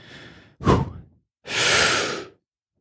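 A single deep breath: a short audible intake followed by a longer, steady, breathy exhale that sounds like a sigh, heard alone with no talking.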